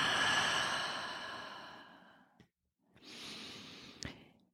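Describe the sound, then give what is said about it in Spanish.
A deep breath is drawn slowly in through the nose as a long, soft rushing sound. A brief pause follows, then an airy exhale out through the mouth, quiet and unaccompanied by speech. “inhala profundo por tu nariz. Y exhala por la boca y suelta el aire.”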